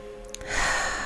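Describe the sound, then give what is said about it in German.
A single deep breath drawn in during a guided seated relaxation exercise: a soft, breathy hiss that swells and then holds steady for roughly half a second, with no talking. “Vielleicht möchtest du einmal ganz tief einatmen”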